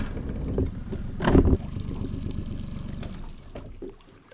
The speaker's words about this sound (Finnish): Joo, pannaan koneet käyntiin ja ajetaan tuolla.